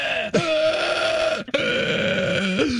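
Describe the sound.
A voice imitates a man's strained wheezing during an asthma attack: long, droning, tonal groans with a wavering pitch, in three drawn-out stretches split by brief breaks.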